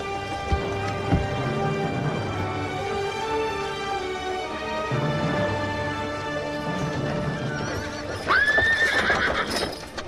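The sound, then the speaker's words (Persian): A horse's hooves clop steadily throughout, then the horse gives one loud, high whinny near the end. “لشکر 10,000 نفری مهدی علیه السلام به سمت مدینه حرکت کرد.”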